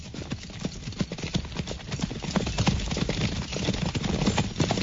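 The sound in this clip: Horses' hooves pounding as riders travel, many rapid clip-clopping hoofbeats in a continuous, driving rhythm that stays loud throughout.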